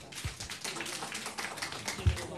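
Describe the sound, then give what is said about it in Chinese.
Audience applause welcoming a singer from a Nanjing Xi opera fan club to perform at a traditional Chinese opera gathering; dense, steady clapping fills the whole stretch, with a couple of low thumps. “来，掌声欢迎。”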